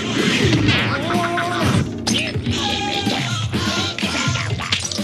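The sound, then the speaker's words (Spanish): Crashing and smashing in a bar as a cricket mallet strikes a ball on a billiard table and several bottles break, heard within a dense, busy mix of loud clatter with tonal sounds running through it. “En la mesa de billar, un gremlin golpea la bola con un mazo de cricket y rompe varias botellas.”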